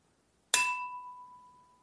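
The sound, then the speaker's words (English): A box cutter strikes a wine glass once with a sharp clink, followed by a clear, sustained glassy ringing that slowly fades away. “just smashed a box cutter into a wine glass.”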